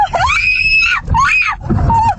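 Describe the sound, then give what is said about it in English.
A woman screams from the passenger seat of a car during a road confrontation. Three loud, shrill cries rise and fall in pitch, with a low rumble beneath them. “The victim's wife screaming from the passenger seat.”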